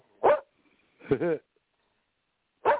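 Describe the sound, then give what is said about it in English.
A dog barks three times, short sharp barks separated by silence, with the first two close together and the last after a longer pause. “And that's the dog giving his 2 cents worth.”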